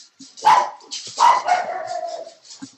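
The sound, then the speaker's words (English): A pet dog barks twice, sharply and loudly, with the second bark drawn out into a longer whining tone before fading to quiet. “Oh, scared the hell out of me, dog.”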